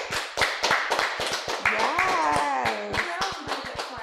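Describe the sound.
Applause from a talk-show audience greeting two guests: a burst of uneven clapping with whooping voices rising over it, steady and fairly loud for the whole stretch.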